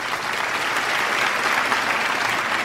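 Applause from an audience in a university theatre at a graduation ceremony honoring a graduate: a dense, continuous patter of many clapping hands, loud and unbroken from start to finish.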